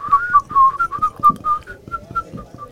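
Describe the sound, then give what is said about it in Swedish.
A person whistles a short, lively melody of many quick notes, some held slightly longer, in a clear, fairly soft tone with no talking. “Jaha, det är klart man kan vissla. Jaha. Vill du höra någon liten melodi?”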